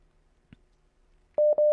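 Two short, steady electronic telephone tones sound back to back as a call is redialled, with a faint click coming just before them.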